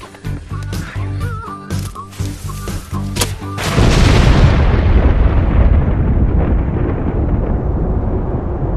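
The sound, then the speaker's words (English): A gas bucket explodes after being hit with fireballs. A stretch of tonal sounds gives way to a sudden heavy boom midway, followed by a dense rumbling roar that slowly fades. “jam that in the gas bucket. We'll shoot fireballs at it.”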